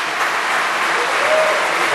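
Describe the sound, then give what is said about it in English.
An audience at a category competition breaks into applause, a dense, sustained clatter of many hands clapping that stays level and unbroken throughout. “Round of applause.”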